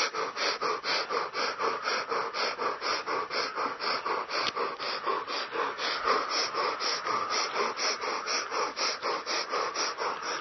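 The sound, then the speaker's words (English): Rhythmic deep breathing during a breathing exercise: many quick, evenly spaced breaths repeat at a steady pace without pause, breathy and moderately soft, with no talking. “There's no reason on earth why people couldn't just breathe like that for 20 minutes.”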